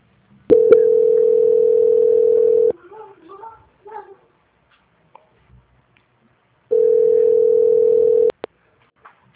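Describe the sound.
A steady telephone tone sounds after star 2 is dialed to transfer a call: a loud, unwavering mid-pitched tone lasting about two seconds, a gap with faint murmuring voices, then the same tone again for about a second and a half.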